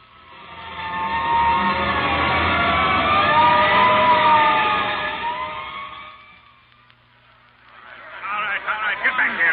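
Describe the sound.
A hook and ladder fire engine's siren wails loud and wavering for several seconds, then fades away. Voices follow as people talk.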